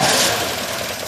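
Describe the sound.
A car engine turns over in a brief, loud burst of rough mechanical churning, with no voices.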